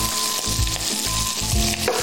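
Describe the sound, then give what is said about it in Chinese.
Black wood ear fungus stir-fries in a wok over high heat with a steady, loud sizzle. A few rhythmic scraping strokes of stirring cut through the hiss. “再倒入黑木耳，开大火翻炒1分钟左右，随后撒入少许的盐、糖，”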